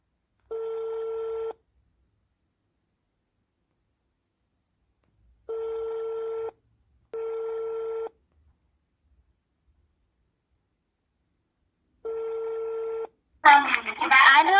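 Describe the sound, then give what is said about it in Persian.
Ringback tone of an outgoing phone call: four steady, buzzing beeps at one even pitch, spaced by long pauses, with a voice starting to speak right at the end. “پس بریم که زودتر باشون تماس بگیریم و مصاحبمون رو شروع کنیم.”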